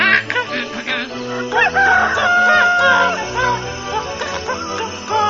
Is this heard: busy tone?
no